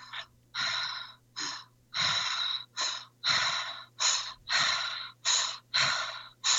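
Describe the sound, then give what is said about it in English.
Rapid, continuous breathing for an exercise sets short inhales against slightly longer exhales in a steady, even rhythm. Many loud, breathy pulses repeat without pause and with no talk. “you want to do continuous breaths, focusing on your inhale a little bit less than your exhale. So it's like this.”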